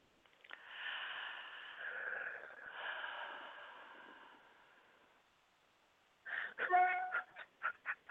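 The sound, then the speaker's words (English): A deep breath during a channeling interview, a long, soft airy rush that lasts several seconds before fading, followed by a voice beginning to speak. “So take a deep breath.”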